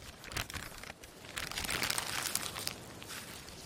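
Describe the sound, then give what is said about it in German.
Paper rustles and crinkles as a letter is opened, a continuous dry crackling with a few sharper crunches and no voices. “Und dann öffnete sie den Brief und las, was Alfred”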